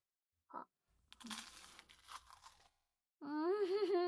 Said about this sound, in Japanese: お湯を入れて、その間に私はクロワッサンを食べるわけです。